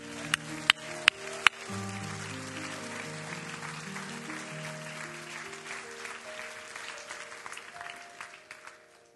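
Applause from an audience welcoming a pastor at a church service in Fort Worth, Texas. It opens with a few sharp, separate claps, then swells into steady, dense clapping that carries on evenly to the end.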